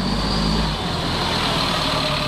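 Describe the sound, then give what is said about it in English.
Steady, loud low engine rumble from a bus running on biodiesel, droning continuously with a broad noisy hum and no clear breaks. “Operation Free's bus, powered by biodiesel, has rolled through 22 states so far”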